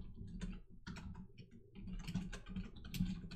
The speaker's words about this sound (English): While we all type.